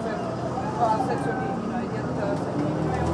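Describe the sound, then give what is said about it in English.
A bus engine drones steadily as the bus drives along, a continuous low rumble mixed with road noise, with a faint voice murmuring over it now and then. “you can probably hear the engine of the bus going.”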